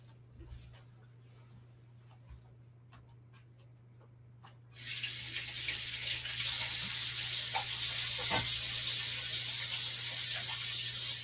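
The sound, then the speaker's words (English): Tap water runs while hands are washed during breadstick baking. A few faint clicks and a low steady hum come first, then rushing water starts abruptly midway and continues evenly to the end. “I'm gonna go wash my hands.”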